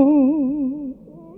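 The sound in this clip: A talking cat meows along as its owner sings, giving one long, steady, wavering tone for about a second before it drops away into quiet.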